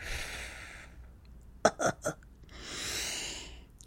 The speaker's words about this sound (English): And now hold. And now exhale like you're squeezing all the toothpaste out of a tube. Keep going. A little more.